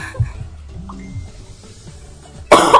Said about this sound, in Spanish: Me muero, quiero toser y no me dejo.